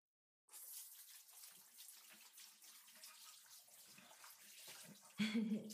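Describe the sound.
Water pours to rinse a person's face during washing, a soft, steady splashing hiss that runs evenly after a brief silence and swells slightly near the end.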